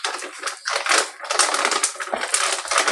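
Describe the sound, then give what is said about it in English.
Scissors cutting along the seam of a plastic M&M candy bag: several bursts of crinkly, crackling plastic and snipping, moderately loud with brief pauses between cuts. No voices. “And now we're going to cut along the seam. And so just cutting.”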